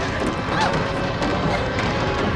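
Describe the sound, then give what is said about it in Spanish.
Zombies crashing a door down, a dense, noisy mass of banging and splintering thuds that runs through the whole short stretch at a steady, fairly loud level. “Los zombies consiguen tirar la puerta.”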